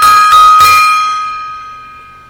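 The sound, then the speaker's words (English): A gong struck three times in quick succession rings out with a bright, sustained metallic tone that fades slowly after the last hit, with no talking. “All right, a little gong time there.”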